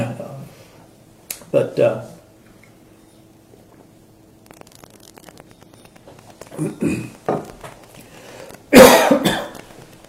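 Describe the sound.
A few sharp coughs break up long quiet stretches: a short pair early on, a couple of softer ones later, then one last loud, harsh burst.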